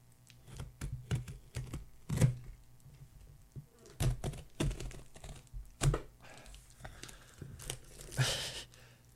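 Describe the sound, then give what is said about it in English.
A package wrapped in heavy layers of tape is ripped open. Faint, sporadic crackly tears and dull thumps come in short irregular bursts, with a longer scratchy rip near the end. “How many rolls of tape did Matt use on this? Got a package from Matt”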